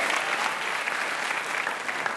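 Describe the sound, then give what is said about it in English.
An audience applauds a guest on a live quiz show, with dense, steady clapping that holds at an even level throughout. “Give her a hand, Megan McCain.”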